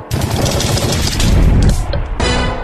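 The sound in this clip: Gunshots in a film trailer: a loud, dense burst of rapid gunfire rattles for about two seconds and then gives way to a short ringing tail.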